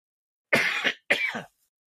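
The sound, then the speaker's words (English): Two rough, throaty coughs or throat-clears from someone with a lingering cold. They come as two separate harsh bursts, the second slightly shorter, with no talk around them. “I feel like I'm coughing up a lung.”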